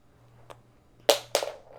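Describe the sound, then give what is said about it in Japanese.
A pencil strikes a wooden floor. A faint tick comes first, then two sharp clacks follow close together, the second trailing into a brief rattle. “あの、木の方に叩いて。木の方の床に叩いて。ウッドの方。それが鉛筆だよね。うん、あ、それとかあの転がして。あの、落として、チャラチャラチャラって。”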